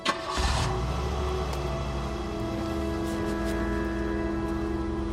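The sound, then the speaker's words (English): A white stretch limousine drives off, its engine giving a brief burst at the start and then a steady, fairly loud drone that holds level for about five seconds with no talk. “watches the white stretch limo drive off”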